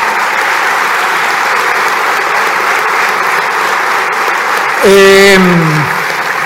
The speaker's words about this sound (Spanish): Un aplauso para Juan Gelman